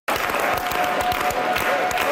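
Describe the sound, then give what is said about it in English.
Crowd applause at an election-night gathering for a Quebec party returning to power as a minority government. Dense clapping starts abruptly and holds steady and loud throughout. “Scattered clapping turned into a unified chant for Quebec Premier-designate Paul St-Pierre Plamondon.”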